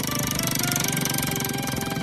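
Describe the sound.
A prize wheel spins with a fast, unbroken run of clicks that stays steady and fairly loud for the whole stretch.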